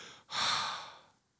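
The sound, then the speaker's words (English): A single breath exhaled onto a hand: a soft, airy hiss that swells quickly and then fades out over about a second, faint and alone. “So if you just shut your eyes and breathe on your hand”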